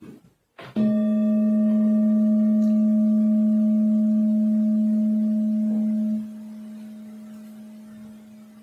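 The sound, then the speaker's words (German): A singing bowl is struck once, giving a bright attack and then a long, sustained ringing hum with layered overtones. The hum drops in level partway through and keeps sounding alone. “Und wie jede andere Meditation fängt diese Übung auch mit dem Klang meiner Klangschale an.”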